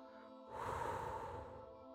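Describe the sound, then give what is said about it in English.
A breath blown out onto a toy windmill makes a soft, airy whoosh that starts suddenly and fades over about a second and a half. It sounds quiet, with steady background music underneath. “Bring your windmill to your mouth. Slowly open your mouth and blow.”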